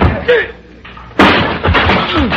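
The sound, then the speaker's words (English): A sudden loud crash as a man is knocked down with a chair during a holdup, one sharp hit midway through, with excited voices talking before and after. “You knocked him down with the chair.”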